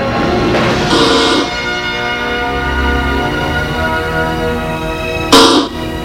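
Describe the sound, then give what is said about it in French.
A bell rings at the door of a president's office, with sustained ringing chime tones throughout and two brief, brighter bursts, one near the start and one near the end. “elle sonne à la porte du bureau du président.”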